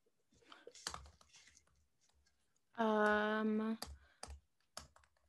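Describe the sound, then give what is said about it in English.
Typing on a computer keyboard produces faint, sparse, sharp clicks scattered across a quiet background. A sustained voiced hum sits in the middle. “I typed in Dan and Blair first kissed”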